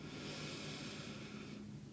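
A slow, deep breath in during a guided meditation breathing exercise: a soft, airy rush of inhaled air holds steady for about one and a half seconds, then stops.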